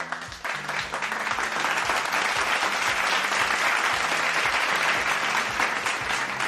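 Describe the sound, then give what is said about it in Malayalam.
Loud, dense applause from an audience rewarding everyone who answered a quiz question, a steady unbroken wash of clapping that holds at full strength for several seconds with no talking over it. “അപ്പൊ എന്തായാലും ഉത്തരം പറഞ്ഞ എല്ലാവർക്കും ഒരു കയ്യടി.”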